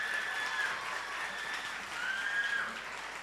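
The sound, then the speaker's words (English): An audience applauds competitors after a contest in which they shook their opponents' hands. The even clapping continues at a moderate level for the whole stretch. “Please put your hands together for them one more time.”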